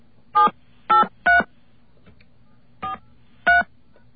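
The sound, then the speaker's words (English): Telephone keypad tones enter a voicemail password: five short, separate beeps spaced unevenly over about four seconds, the fourth slightly softer, with quiet line hiss between them. “we're going to enter the password now.”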